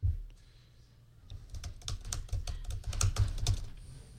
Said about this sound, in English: No, I typed there. Let's type here. It's a little sluggish in the typing.